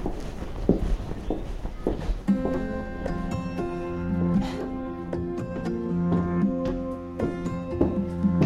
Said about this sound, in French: Après cette déconvenue, je monte chez mon voisin Lionel